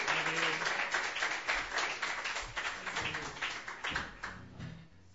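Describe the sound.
Audience applause welcoming a performer at an open mic night: a dense, steady patter of many hands clapping that runs throughout, with a few voices faintly mixed in.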